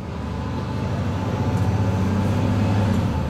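Steady engine rumble and road noise inside a moving city bus, a constant low droning hum that stays even throughout, with no voices.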